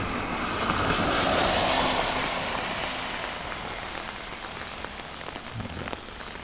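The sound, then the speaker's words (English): Rain patters on an umbrella during a field recording walk, a dense steady hiss that swells broadly early on as an SUV passes, then eases back to even drumming. “SUV passing. Of course, I bet you're hearing right now is mostly the umbrella.”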